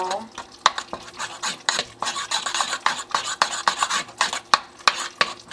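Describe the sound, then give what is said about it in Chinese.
Stirring pork, shrimp and chive dumpling filling with sesame oil in a bowl: quick, repeated scraping and squelching strokes in an uneven rhythm, with sharp utensil clicks against the bowl. “好，那接下来的工作就是搅拌它，搅搅搅，搅搅，”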